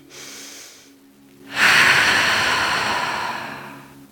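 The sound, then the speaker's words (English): A deep inhaled breath taken during a guided stretching exercise: a long, loud, airy rush of about two and a half seconds, preceded by a softer, quieter breath. “Let's take an exhale. Let's take a deep inhale breath together.”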